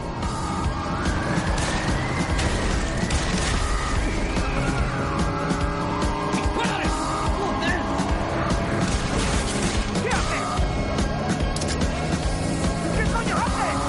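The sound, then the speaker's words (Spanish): Car chase sounds from a heist action thriller: one car repeatedly rams another from the side as gunfire is exchanged, with roaring engines and skidding tires forming a dense, loud, continuous barrage. “Sale una pistola por la ventanilla de un coche. El coche les golpea lateralmente varias veces. Intercambian disparos.”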